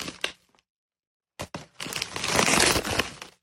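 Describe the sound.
Wrapping is torn as a package is opened: a few short, sharp rips, a brief pause, then a long, loud crinkling tear that runs for over a second before stopping.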